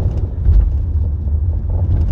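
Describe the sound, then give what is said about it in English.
A big truck passing on the road makes a steady, heavy low rumble that holds at an even level for about two seconds, with no voices. “Brights on? Oh, it's just a big old truck.”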